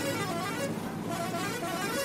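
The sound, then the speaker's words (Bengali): A bus horn honks insistently as the driver tries to overtake another bus on a narrow road, a loud, steady blare set in dense, continuous traffic noise that holds at the same level throughout. “কান ঝালাপালা করে আগে যাওয়ার জন্য horn মারতে থাকে সেই বাসের চালক।”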